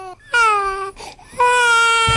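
Infants wailing loudly, two long, high, strongly tonal cries separated by a short whimpering break, with no talk over them.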